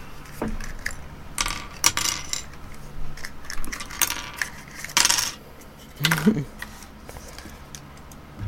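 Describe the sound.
Foil wrapper of a Kinder Surprise chocolate egg torn open in a hurried flurry, many crinkly, rustling bursts of varying loudness, with a brief voice partway through.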